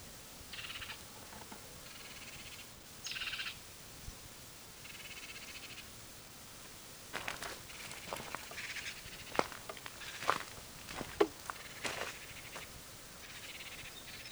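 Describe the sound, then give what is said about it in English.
Two birds give protest calls: many short, sharp notes, faint and scattered, over a steady soft hiss with some buzzy background sound. “There's also another bird giving protest notes. So there are 2 birds here.”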